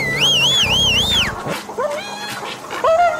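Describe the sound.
Two large, menacing dogs roaming indoors: wavering high-pitched whines over a rough, low growl, followed by a few shorter yelping cries.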